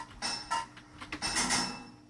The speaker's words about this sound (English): 2 hits of a hammer to fit a pipe.